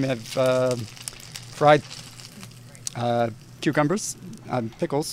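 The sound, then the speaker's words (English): Pickled green tomatoes fry in very hot oil, a faint steady sizzle and crackle running under a person talking. “So let me go ahead and flip this. We got some real hot oil there. So these are pickled green tomatoes.”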